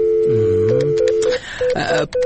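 A telephone call is dialed: a steady tone sounds first, then a quick run of many short keypad beeps at varied pitches, clear and alone.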